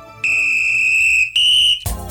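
Radio station time signal: two steady, high-pitched electronic beeps, a long one and then a shorter, slightly higher one, followed by a brief burst of noise.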